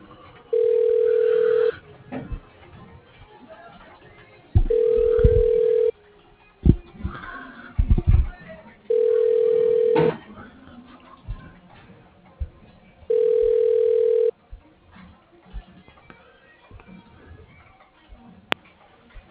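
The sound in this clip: Telephone ringback tone while a call is transferred to an office line: four long, steady, low ringing bursts at even intervals, with quiet line noise and small clicks between them.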